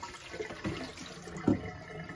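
Water pours and splashes as potato wedges are strained from a bowl into a plastic strainer in a sink. The splashing is faint and uneven, with one louder splash near the end.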